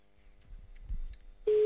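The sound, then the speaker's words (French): A steady, plain ringback tone sounds on a telephone line during a call. It is a single loud, even note that starts abruptly near the end after a quiet stretch and is cut off. “Allez, encore une petite sonnerie, ou deux.”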